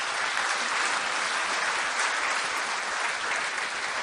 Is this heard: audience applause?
yes